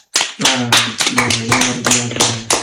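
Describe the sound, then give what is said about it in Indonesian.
Classroom hand clapping during an English vocabulary lesson, set to a patterned group beat: a series of sharp claps in a repeating rhythm over sustained voices chanting underneath. “Oke, aplaus dulu.”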